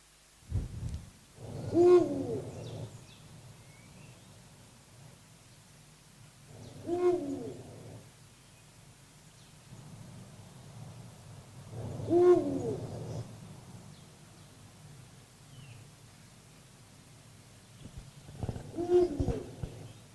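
Low hooting bird calls from a bird perched prominently with its tail raised and wings drooping. Four soft, low-pitched phrases come about five seconds apart against a quiet background.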